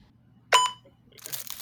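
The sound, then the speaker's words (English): A sharp crack, then soft crinkling of the wrapper as a wrapped fortune cookie is opened. The sounds are brief and fairly faint, with no talk. “As I open a fortune cookie, I haven't had a fortune cookie from Panda Express”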